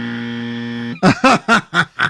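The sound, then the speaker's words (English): An unwanted electrical buzzer interfering with a recording: a steady, low, harmonic-rich buzz holds for about a second, then gives way to five loud, evenly spaced pulsing bursts. “Buzzed out the first 2 minutes. Not good. I need to get rid of that buzzer.”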